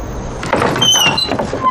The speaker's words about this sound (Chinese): 开门啊